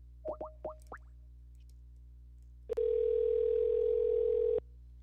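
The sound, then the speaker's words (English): Telephone dialing: four short, quick blips, a brief pause, then one long, steady dial tone lasting about two seconds before cutting off. “Bear with me here while we dial him up.”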